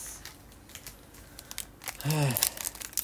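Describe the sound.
Trading card packs being opened, the wrappers crinkling and tearing in a run of dry, rustling crackles, with a short stretch of talk near the end.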